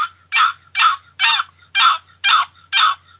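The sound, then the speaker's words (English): Raspy yelps from a wooden box call imitating a turkey gobbler, played in a slow, deliberate rhythm. A steady series of evenly spaced, loud scratchy notes is separated by short silent gaps, with no talk. “I got my box call here. All right. Okay, you're yelping. You know, hens kind of fast, you know. Quick and fast word. Gobbler yelp, just slow that down.”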